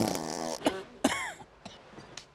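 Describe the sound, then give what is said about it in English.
An elderly woman's fart in the morning comes as a few short, sputtering bursts with a brassy, tonal rasp, moderately loud and alone. “Next morning, Nan farts in Jamie's face.”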